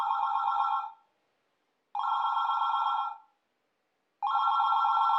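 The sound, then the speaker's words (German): An electronic telephone ringing in three bright, buzzing bursts of about a second each, separated by short silent gaps, steady in pitch and moderately loud with no voices. “Das Telefon klingelt. Das Telefon klingelt.”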